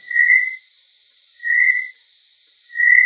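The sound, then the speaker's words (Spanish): Calls of male chorus frogs: three evenly spaced, loud, high-pitched call notes, each lasting about half a second, with no voices present. “Las ranas de coro macho producen al menos dos tipos de llamadas, una de una fase”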